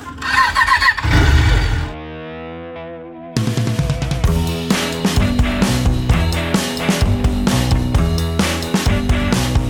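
A motorcycle engine starts with a rough, loud burst, then drones and revs through a steady, distorted stretch, overlaid with pulsing, music-like effects.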